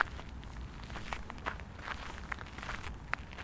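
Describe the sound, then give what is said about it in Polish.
Slow, deliberate footsteps of an elderly man out for a walk: a steady series of soft, faint steps over a low background rumble, with no voices. “Także ja sam sobie tutaj nagrywałem też już z myślą o tym właśnie, jak ten starszy człowiek idzie na spacer”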